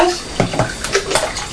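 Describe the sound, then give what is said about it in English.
Water splashing in a bathtub as a young child splashes about, with several sloshing bursts over continuous rushing water. “Splash of water. Splash of water. Just be careful splashing,”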